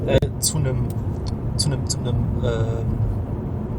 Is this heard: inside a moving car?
yes

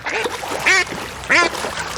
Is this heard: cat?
no

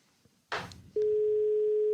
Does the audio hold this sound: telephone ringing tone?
yes

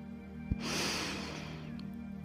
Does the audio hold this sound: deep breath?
yes

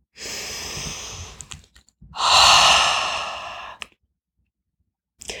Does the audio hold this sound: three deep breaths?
yes

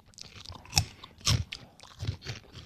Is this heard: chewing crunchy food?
yes

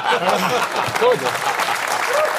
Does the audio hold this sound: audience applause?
yes

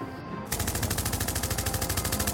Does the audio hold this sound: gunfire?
yes

